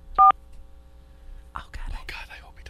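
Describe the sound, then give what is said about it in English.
A single loud telephone keypad tone from someone dialing a number on a phone rings out briefly near the start, followed by soft whispering voices. “The number you have entered has not been recognized. Did you dial it wrong?”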